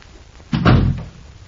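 A hospital room door being opened and closed softly gives a single brief, muffled thump against a quiet background, with no voices.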